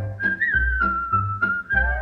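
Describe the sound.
A tune is whistled in bright, clear sustained notes. The pure melody line holds long tones, dips briefly between phrases and stays steady and fairly loud throughout.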